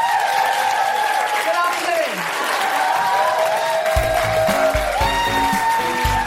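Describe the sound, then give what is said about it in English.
Audience applause closing a live comedy show, a broad wash of clapping that runs throughout while a voice talks loudly over it. “And a huge round of applause for my incredible co-pilot, Kima Ball!”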